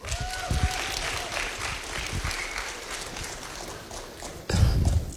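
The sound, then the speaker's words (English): An audience applauds dancers at a community gathering in Rockingham, with steady dense clapping throughout that swells louder near the end. “Put your hands together for the dancers, yeah?”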